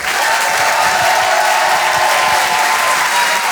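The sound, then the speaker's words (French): A comedy club audience applauds and cheers to welcome a performer, producing a steady, dense wash of clapping that stays loud and even throughout. “Je vous demande de faire un maximum de bruit, s'il vous plaît, pour Urbain.”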